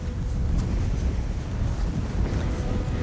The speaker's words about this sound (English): As you can probably hear, the wind is very strong today